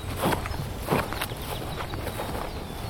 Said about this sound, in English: They're walking away from me now. They think I'm crazy. I like this place. This reminds me of the farm. It's just... I guess maybe it's the cattle beside me,